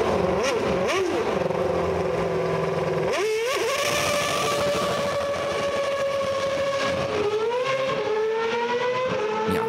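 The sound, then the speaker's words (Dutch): A racing car drives the first lap of the newly renovated Zandvoort circuit, its loud, high engine whine surging upward in sharp pitch sweeps between gear changes, then holding long sustained tones. “Niemand minder dan Max Verstappen reed het allereerste rondje op de racebaan.”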